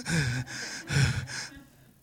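A preacher catching his breath in the middle of a sermon: a few heavy, breathy exhalations and gasps, some partly voiced, follow one another closely and then fade to quiet.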